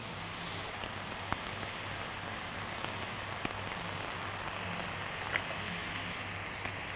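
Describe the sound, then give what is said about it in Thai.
Sizzling of rice being stir-fried in a pan with fish sauce and oyster sauce, a steady, even hiss with a few faint clicks from the spatula scattered through. “ผัดให้เข้ากันเวลาเราผัดข้าวนะคะเราอย่าไปกดข้าวอย่าไปบี้ข้าวเพราะว่าเดี๋ยวมันจะแฉะแล้วก็ข้าวจะเละนะคะ”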